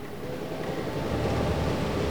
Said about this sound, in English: As they move off, the train draws away again.